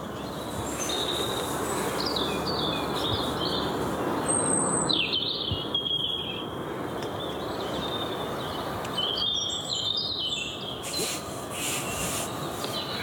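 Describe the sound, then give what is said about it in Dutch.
Outdoor birdsong, including a European robin, with several birds trading high chirps and warbling phrases over a steady low rumble. “Hoort er minstens 6, denk ik. Overal om ons heen.”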